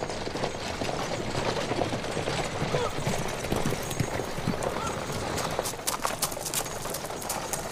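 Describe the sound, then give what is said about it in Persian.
Hooves clip-clop steadily from a horse pulling a carriage, a continuous rhythmic clatter of hoofbeats that stays at an even loudness amid a dense, noisy background throughout. “زنی با روبند سوار کالسکه است و به سمت خونه میره.”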